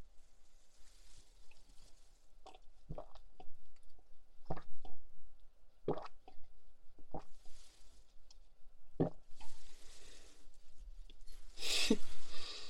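Wet lapping and slurping from a dog drinking, made up of many irregular splashy clicks over a soft continuous background of moderate loudness.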